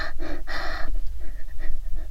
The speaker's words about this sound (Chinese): 别再对着我的脚又吸又闻的了。你这样大口大口的吸气，到底是做什么？